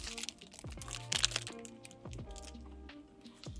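Someone bites into a whitish, soft-style cookie with a corn flavour and rice-cracker taste. Brief crisp crunches sound over ongoing music, with one sharper, louder crackle near the middle.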